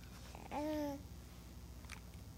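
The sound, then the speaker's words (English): A baby gives a single short coo, a clear babbling vocalization whose pitch slides downward over about half a second. It sounds fairly soft against a quiet background, with only faint rustles afterward. “But that gives you a glimpse in babbling, right? And technically, that's cooing, I think, if we're going to be very technical.”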